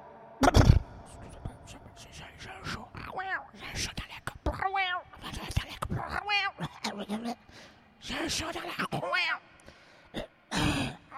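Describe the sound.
A throat clears in one short, harsh burst near the start, followed by a run of voiced groans and speech sounds with pauses between them.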